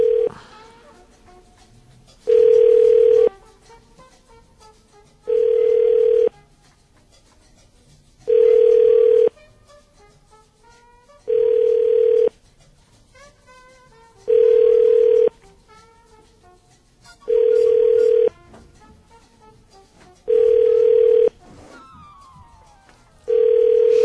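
A telephone ringback tone repeats on an unanswered call that is being forwarded to voicemail. Regular, steady pitched bursts come about every three seconds, with fainter sounds in the gaps.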